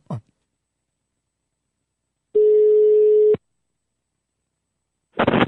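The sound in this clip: A telephone line tone while placing a call, one steady beep lasting about a second at a constant mid pitch, with silence around it, a brief noise near the start and a burst of noise at the end.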